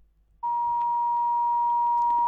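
A steady, pitched electronic tone sounds on a phone line after a call disconnects. It starts suddenly after a moment of near silence and holds one unchanging note at an even level.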